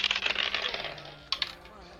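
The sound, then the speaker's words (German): Dice rolled during a tabletop role-playing game: a quick rattling clatter of hard clicks that tapers off, then two more sharp knocks as the dice settle. “Wenn du jetzt nochmal äh, würfelst, dann wieder mit Nachteil.”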